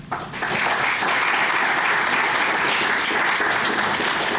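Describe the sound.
Applause from an audience welcoming a guest professor to a lecture: after a brief onset, thick, even clapping from many hands holds at a steady, loud level to the end.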